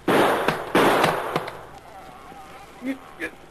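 Gunshots fired to blow the lock off a chest: two loud, sharp blasts with short decaying tails, followed by a few lighter clicks and brief faint sounds.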